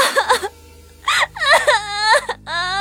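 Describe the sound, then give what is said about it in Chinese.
A girl bursts into tears, voiced as acted crying: a few high, wavering wails and sobs with rising and falling pitch, broken by short pauses. “窦颜一路上表现得颇为成熟，极致看见此人，却禁不住哇的一声哭了出来”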